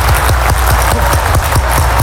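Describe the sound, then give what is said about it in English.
An audience claps together in a steady, even rhythm. The sharp, loud beats fall many times in quick succession without pause. “This is the clapping that should have been in the football stand. This is the clapping that should have been at your graduation.”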